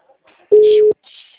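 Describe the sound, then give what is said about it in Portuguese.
A telephone ringback tone heard while placing a call: a single steady, mid-pitched electronic beep lasting under half a second, standing out loudly against near silence. “Tô ligando, tô ligando, tô ligando.”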